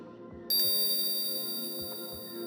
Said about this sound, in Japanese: 催眠ベルを聞くたびに、頭の中にもやがかかる。思考がとろんと溶けていく。